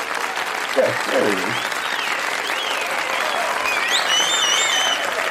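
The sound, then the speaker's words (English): A crowd applauds an award for best story of the year, with sustained, dense clapping throughout and a few sharp whistles rising above it near the end. “the crowd is really revved up over that.”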